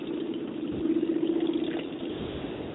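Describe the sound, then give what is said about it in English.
Motorcycles ride past in a procession paying tribute to a fallen police officer, a continuous mid-pitched engine drone that swells slightly partway through and then holds steady. “Of course, I'll let you take a look at the motorcycles coming down”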